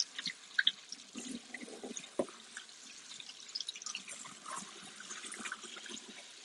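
Running tap water pours over food being rinsed in a sink: a steady hiss of flowing water with a few sharper splashes near the start.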